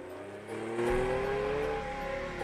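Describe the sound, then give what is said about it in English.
A car engine revs as the car is put into gear and reverses away down a driveway, with a steady drone and a gear whine that slowly rises in pitch and holds loud and even throughout. “Harry puts the car into gear, then reverses away”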